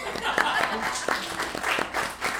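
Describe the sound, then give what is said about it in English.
Audience applause, a short patter of scattered hand claps at fairly low level, running for a couple of seconds. “Can we just give Ben a hand for coddling the audience?”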